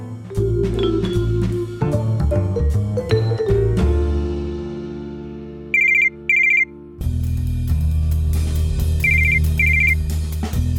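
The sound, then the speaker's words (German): An incoming call on a telephone: two pairs of short, high electronic rings cut through loud, steady music playing underneath, with a gap between the pairs. “Max hat gerade einen Anruf von seiner Chefin erhalten”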